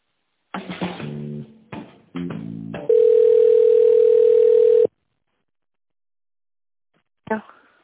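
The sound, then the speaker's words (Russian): A telephone ringing tone plays while a call is connected to a bank: brief broken tonal sounds come first, then a single steady mid-pitched tone of about two seconds, then silence and a short burst at the end. “Давайте я вас попробую сейчас соединить.”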